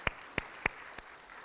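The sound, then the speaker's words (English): Four faint, isolated handclaps ring out during a church service, spaced a fraction of a second apart, with the last one softer. “That's worth clapping to.”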